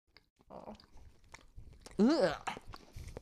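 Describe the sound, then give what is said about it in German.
People bite into and chew a soft milk bread, producing a few crackly bites and wet chewing noises, with voices talking in between. “Es riecht nach Art Milchbrot. Habt ihr schon reingebissen? Nee, noch nicht. Okay, 1, 2, 3.”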